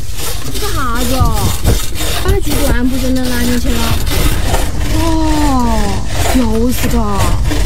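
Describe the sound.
Wood being sawn with steady back-and-forth rasping strokes, loud and rhythmic throughout, while a wailing, voice-like sound rises and falls over it.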